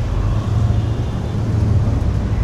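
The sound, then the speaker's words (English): Street traffic with motorcycles and mopeds makes a steady, loud, low engine rumble that holds without a break and has no clear individual pass-bys. “Small dogs dressed in baby clothes, adept at dodging the traffic. Motorcycles and mopeds and more motorcycles.”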